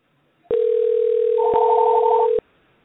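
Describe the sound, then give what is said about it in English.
A telephone tone plays while a number is dialed: one steady, continuous electronic tone lasting about two seconds, alone and cutting off abruptly. “Okay, now I'm going to call the number.”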